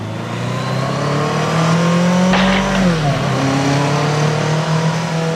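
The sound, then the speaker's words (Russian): A motorcycle engine roars in a steady, droning tone that grows a little louder, with a brief burst of noise and a drop in pitch partway through before the drone carries on. “И когда сзади взревел мотоцикл”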